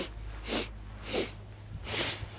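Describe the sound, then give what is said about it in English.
Forceful breaths during the breath of joy yoga exercise: three sharp, airy bursts spaced evenly apart, the last one broader and longer. “So inhale, inhale, inhale, and exhale.”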